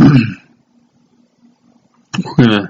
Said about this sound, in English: I got to get my throat clear.